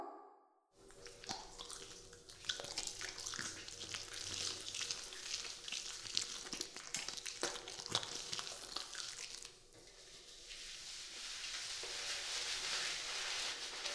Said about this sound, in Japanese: 髪洗うよ。